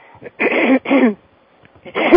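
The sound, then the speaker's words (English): Throat clearing from a person, heard as three harsh, rasping bursts. The first two come close together, and the third follows after a short pause. “here I'm going to clear some throats here, so excuse me,”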